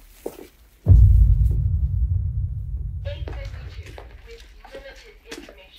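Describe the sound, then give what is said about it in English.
Bomb explosion rumble: a sudden heavy boom swells into a deep, throbbing low roar that slowly fades over several seconds, with voices and scattered noises emerging as it dies down. “What happened? A bomb, I think.”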